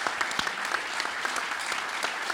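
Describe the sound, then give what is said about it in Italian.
An audience applauds at an Italian regional government event as a staff member is called up to the stage. The clapping is steady and moderately loud, with individual sharp claps standing out in the mix. “Un bel applauso!”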